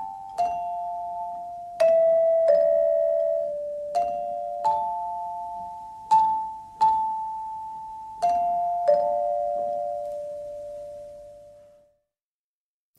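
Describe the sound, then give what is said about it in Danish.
A radio interval signal chime plays the oldest Nordic melody as a slow sequence of clear, bell-like tones, each ringing on and overlapping the next before the final note fades away. “jeg sætter ikke en skiller på, for jeg synes simpelthen, at den her pausesignal, den gør det hele.”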